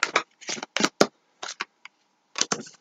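Playing cards being shuffled in quick, crisp bursts, with a few short riffles close together and brief pauses between groups, then a final pair of riffles after a gap.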